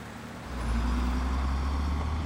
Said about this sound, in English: There are too many cars. I have to take the big road.